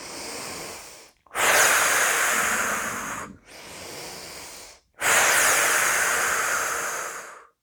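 Slow breathing out during a relaxation exercise: four long, breathy exhalations, hissing and fairly soft, separated by short pauses.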